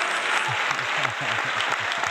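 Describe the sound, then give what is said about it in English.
An audience applauds to welcome a performer onto the stage: steady, dense clapping that continues at an even level throughout. “Ladies and gentlemen, please put your hands together and help me welcome the man with his hands on the rhythm of respect, Mr. Joseph Wooten!”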